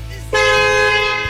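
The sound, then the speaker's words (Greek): A single bicycle horn honk cuts in abruptly over a low background hum, holding one bright, steady tone at full volume for about a second. “Πού είναι η δικιά σου κόρνα, κυρία μου? Α, μπράβο. Αυτή ήταν από το ποδήλατο.”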